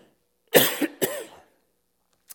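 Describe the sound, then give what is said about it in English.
Two harsh, loud coughs in quick succession from a person with a lingering cough after COVID, each a sharp burst that fades quickly, followed by quiet. “I had COVID just before holidays, and this is one of the side effects of it, is a constant cough.”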